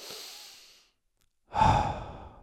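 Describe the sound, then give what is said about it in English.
Deep breathing alone: one airy breath trailing off, then after a short silence a stronger, fuller breath that swells and slowly fades. “Just calm down. Take a breath.”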